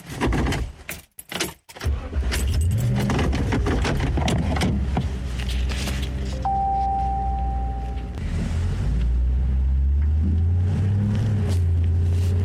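A car drives down a winding hill road, its engine a steady low hum with shifting tones that varies in level. A brief rattling clatter comes near the start. No one speaks.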